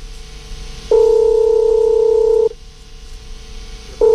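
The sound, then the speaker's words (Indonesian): Telephone tones as a call is placed: a loud, steady, two-pitch tone holds for about a second and a half, goes quiet, then sounds again at the end over a low background hum. “coba kita hubungi di jam makan siang ini, semoga diangkat.”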